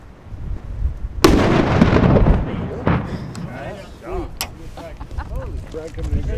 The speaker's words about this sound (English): I take his remote detonator. Without further ado, fire in the hole! Fire in the hole! Fire in the hole!